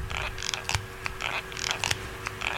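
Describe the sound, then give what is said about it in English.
The worn hinge of a folding phone squeaks after 10,000 folds on a folding machine, giving many short, high, scratchy creaks in quick repeated bursts at a fairly low volume. “after 10,000 folds, they've sort of got this thing, and it's got this squeaky noise, which is slightly unnerving”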